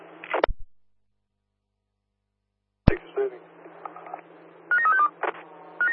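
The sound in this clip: Telephone dialing tones sound over a radio dispatch channel as a call is placed to a unit's mobile phone, a few short, bright tone bursts near the end after squelch clicks and brief radio noise.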